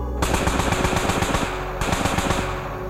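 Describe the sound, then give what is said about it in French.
Machine-gun bursts fired into empty air at midnight beside a canal, a loud and rapid string of many sharp shots in close succession that runs across the whole clip with barely any gap. “Je tire quelques rafales dans le vide pour rien, simplement pour me rassurer.”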